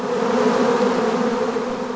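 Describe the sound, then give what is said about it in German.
Dense buzzing of many honeybees at a hive outdoors, a continuous mid-pitched drone that stays steady and fairly loud throughout, with no voices. “Wie viele Bienen befinden sich da gerade wenige Zentimeter vor meiner Nase?”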